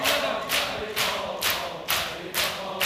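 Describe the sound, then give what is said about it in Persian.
Crowd clapping in unison at a chanted gathering: loud, sharp claps repeat on a steady beat of roughly two per second, each one a bright, crisp burst. “صدای کف زدن داره میاد صدای کف زدن داره میاد”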